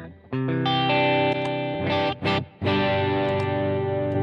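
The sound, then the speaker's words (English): Saturation distortion from an effects unit colours sustained, buzzy, harmonic-rich notes that hold steadily, briefly break into a couple of noisy bursts, then return as a thick, gritty sustained tone. “that distortion you're getting is just the saturation now.”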